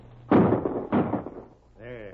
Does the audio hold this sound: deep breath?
no